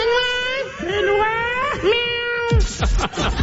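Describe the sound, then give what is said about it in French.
A human voice imitates a cat's meow in long, wavering, drawn-out cries with bending pitch. Rougher, noisier vocal sounds follow near the end. “faut avouer que mon bruit de chat est quand même on point. Là. Ah, oui, oui, oui. C'est un chat, là, accurate.”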